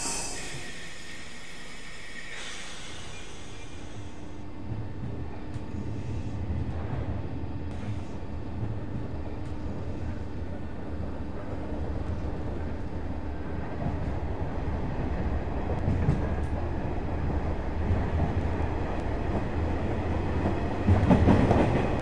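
A train departs on the main line with a steady, loud rumble and rolling clatter that builds slightly and swells near the end.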